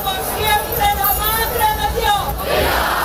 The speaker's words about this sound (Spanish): Después Garrucha, Sabadell o Baeza con unos vivas a la Virgen estremecedores.